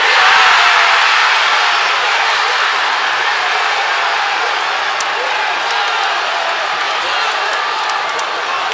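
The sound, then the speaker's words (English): Football supporters in Manchester roar as they celebrate a winning World Cup goal for England. Dense, loud crowd cheering and shouting continues without a break throughout. “That's the sound of supporters celebrating in Manchester as Harry Kane scored the winner.”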